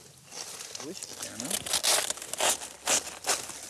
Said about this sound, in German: Aber der Spitzkohl, der schmeckt halt immer noch etwas besonders. Wir können ihn auch mal probieren. Ich schneide ihn einmal durch.